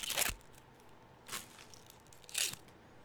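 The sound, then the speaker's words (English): A fortune cookie is broken open in three brittle, crackly crunches spaced about a second apart, each a short sharp burst with quiet in between. “know what? Let's just open this cookie. That'd be fun. I know it's an audio podcast, but let's just, people can say this is ASMR or something. I don't know. All right, we're going to break the cookie.”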